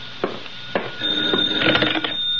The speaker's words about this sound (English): And then the phone rang. That's the phone, comrade. It's for you.